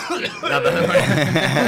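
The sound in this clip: A coughing fit: rough, continuous hacking with throat-clearing, a harsh, noisy burst that runs unbroken from start to end.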